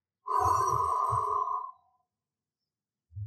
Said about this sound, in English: I take a deep breath in and exhale.